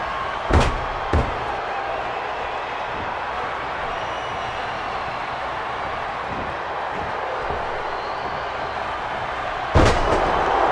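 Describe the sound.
Wrestler slammed onto the mat with a side slam during a tag-team match: a few sharp, loud thuds and bangs cut through a constant roaring crowd.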